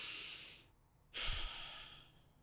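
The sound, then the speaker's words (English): Deep breathing: one soft breath tails off into a short hush, then a sharper, louder breath rushes in with a breathy hiss and gradually fades, two breaths in all with no talk. “I want you to pause and take a deep breath”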